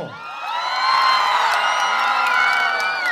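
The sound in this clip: A concert crowd in Zenica cheers and whoops, a loud sustained roar threaded with high shouts and yells that holds steady for about three seconds.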